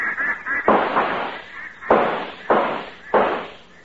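Gunshots during a duck hunt on a lake: four sharp, loud blasts at irregular intervals, each with a quickly decaying tail, after some fainter sounds at the start.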